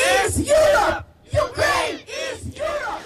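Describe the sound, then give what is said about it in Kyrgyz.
A crowd of Ukraine supporters at a street rally during a summit shouts demands for swift acceptance into the European Union, loud massed voices rising and falling in three rhythmic, chant-like waves. “Саммит учурунда Украинаны колдогон адамдар шаардын көчөлөрүндө митингге чыгып, Украинаны Европа биримдигине кабыл алуу жараянын тездетип чечим кабыл алууну талап кылып кыйкырып”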